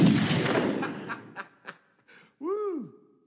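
AK-47 gunfire in a movie promo: a heavy blast with a long decaying roar, then a few sharp cracks, followed by a swooping tone that rises and falls.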